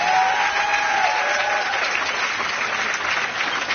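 Audience applause at a live concert in Marseille: a dense, steady wash of many hands clapping that stays loud and even for nearly four seconds, with no voices standing out.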